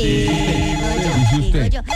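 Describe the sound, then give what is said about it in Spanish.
A telephone rings with a loud electronic ringtone: layered, melodic tones shift in pitch and sound continuously for about two seconds. “usted me está llamando. Dame un segundito, por favor.”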